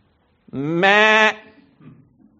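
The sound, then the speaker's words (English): A single sheep bleat, loud and strongly voiced, jumping up in pitch midway and holding before breaking off, followed by faint low rustling noise. “what meaneth this bleating of the sheep then? The noise I hear betrays you.”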